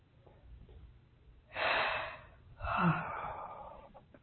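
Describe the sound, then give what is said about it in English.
A slow deep breath is drawn in and then let go in a long, soft, breathy exhale during a guided relaxation, both heard alone and fairly faint. “Nice, deep breath. And let it go.”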